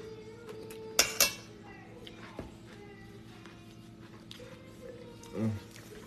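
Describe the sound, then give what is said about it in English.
A utensil scrapes and clinks against a salad bowl, a few sharp metallic taps followed later by a short rougher scrape, all faint against quiet background. “I'm scraping the bowl.”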